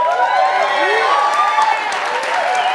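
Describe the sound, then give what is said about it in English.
An audience whoops and hollers to welcome guests coming up on stage, with rising and falling whoops layered over continuous cheering and clapping. “So I told them I'd only allow them to come up if you hoop and holler and make them feel really welcome. So will you?”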